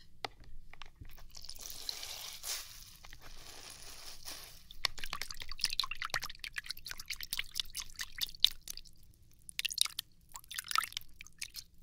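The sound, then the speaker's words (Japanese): Wet lathering and scrubbing while shampooing hair with warm water: soft crackling, squishy foam sounds and fine crinkles, quieter at first and then a busier run of many crisp wet bursts, with no voices. “シャワシャワシャンプーしていこうね。お湯あったかくしといた。”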